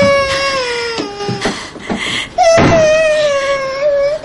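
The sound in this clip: A boy cries in his sister's arms, loud and high-pitched, with strongly tonal wailing sobs broken by short catches of breath, then rising into a long sustained wail near the end.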